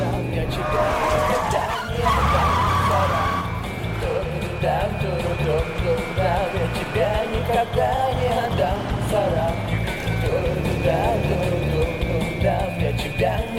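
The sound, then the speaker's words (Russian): Tires screech and skid as a Ford car speeds in reverse through an intersection, a loud continuous roar of engine and squealing rubber with a sharp burst near the start. “Форд задом проносится через перекресток, чудом избежав аварии.”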